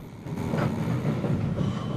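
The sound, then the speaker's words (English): Steady low rumble of a train travelling across the countryside, heard from inside an otherwise empty carriage, with a continuous droning hum and faint rattling throughout and no voices. “After packing his suitcase, Garrett takes the train back across the countryside.”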